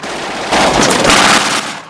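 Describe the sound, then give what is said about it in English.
Machine gun fire aboard the Memphis Belle bomber: one loud, dense, rapid burst lasting about a second, standing alone without voices. “Eugene fires at a circling German fighter. The Memphis Belle jerks violently.”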